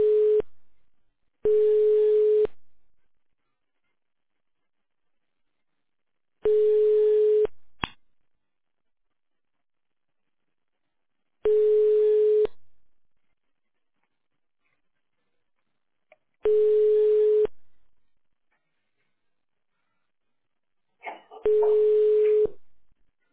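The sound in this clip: Telephone ringback tone while a call is being transferred to an internal extension: a steady single-pitched tone in roughly one-second bursts separated by about four seconds of silence, five full rings following a cut-off one at the start.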